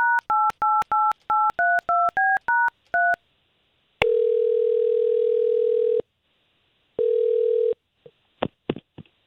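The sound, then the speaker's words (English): DTMF keypad tones as a telephone number is dialed: ten quick, evenly spaced two-note beeps, then two long, steady ringing tones and a few sharp clicks at the end. “I'm just going to get Courtney on the line with the number that you gave me.”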